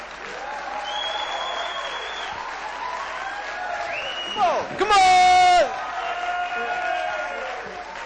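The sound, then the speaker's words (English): An audience applauds as a guest is welcomed on stage. The clapping stays steady and moderately loud, with a shrill whistle early on and a loud rising whoop near the middle. “So I'd like you put your hands together and welcome our sheik.”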